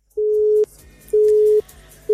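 Telephone busy signal with no caller on the line: three steady, mid-pitched tone pulses of about half a second each, separated by even gaps, the last one cut short, over faint background noise.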